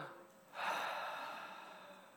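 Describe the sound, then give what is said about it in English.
A group at a student ministry gathering breathes out together in one breathy whoosh that starts abruptly and slowly fades. “Let's all collectively just breathe out, kind of away from somebody. So just on the count of three, let's just...”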